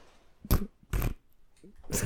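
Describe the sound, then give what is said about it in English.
Fart noises come as three short, rasping, fairly faint bursts separated by brief pauses. “What the? Excuse you. We got fart boys in here.”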